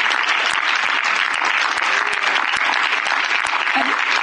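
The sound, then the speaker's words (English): Congregation clapping hands during a church service, steady rhythmic claps landing roughly every half second over a dense, continuous wash of crowd applause. “Clap. Clap. Glory. Clap.”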